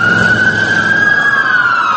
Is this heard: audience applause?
no

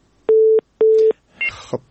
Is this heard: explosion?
no

